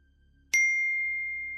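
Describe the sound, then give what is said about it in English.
A phone notification pings once: a sharp, bright ding after near silence, then a clear high tone that rings on and fades slowly. “When I sat back down, my phone pinged again.”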